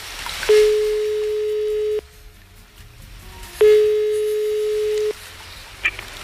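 A telephone tone sounds while a call is being redialed: two long, steady, mid-pitched beeps of equal length separated by a quiet gap, with a brief faint click near the end.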